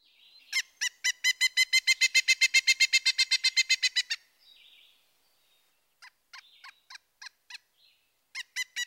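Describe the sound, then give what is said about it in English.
Pileated woodpecker calling: a long, rapid, steady series of loud, ringing ki notes that stops abruptly, then a few scattered single notes and short bursts. “Next, the pileated. His vocalization can be even louder and may be represented as ki ki ki ki ki ki.”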